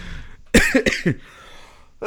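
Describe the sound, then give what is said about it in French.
Someone with asthma coughs: a quick run of several harsh, loud coughs, then a pause, then another cough starting at the end. “Excusez, l'asthmatique en moi va tousser pendant tout l'épisode encore.”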